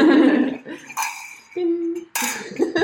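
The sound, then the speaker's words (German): Glasses clink together in a toast with a slightly tinny ring: a couple of bright, short clinks among people talking and a low sustained tone. “Wir stoßen nochmal an auf euch.”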